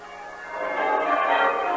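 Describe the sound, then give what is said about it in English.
Town bells pealing on a bright morning: a dense, steady wash of overlapping ringing tones that swells slightly in loudness, with no voices. “A bright, shining morning, and the bells of the town pealing out there beyond his window.”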